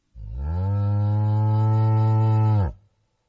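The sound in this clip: A cow moos once in a barn as it is fed straw in the morning: one long, steady, low-pitched moo with rich harmonics, about two and a half seconds, heard alone.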